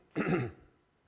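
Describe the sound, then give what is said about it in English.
A single short, chesty throat-clearing cough, brief and fairly soft, heard alone and fading quickly into silence. “I've got a little bit of a chesty cough, so I'll try not to let it upset you too much.”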